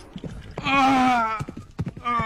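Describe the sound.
Galloping horses pounding along with sharp, uneven hoof clops, joined by a sustained tonal sound in the middle, loud throughout.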